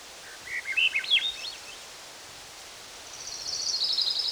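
A thrush sings two short, high phrases. The first is quick and varied, then a pause of over a second, then a higher, more sustained phrase, both faint over soft rustling.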